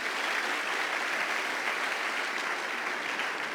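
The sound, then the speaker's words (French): A church audience applauds in a dense, even patter of clapping that holds at a steady, fairly soft level throughout. “On acclame Jésus.”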